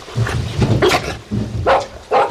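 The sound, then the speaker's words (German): A dog barks while chasing a rat, giving a few loud, gruff barks in an uneven rhythm with short pauses between them. No one speaks over it. “Er hat eine Ratte gesehen. Aber er muss sie doch nicht gerade jetzt jagen. Verdammt, was ist das für ein Köter?”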